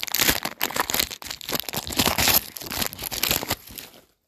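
A foil trading card pack is torn open, giving many loud, rapid crinkles and rips in an uneven burst that stops abruptly just before the end.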